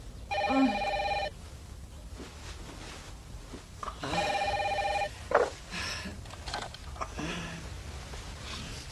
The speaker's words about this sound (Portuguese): Telefone.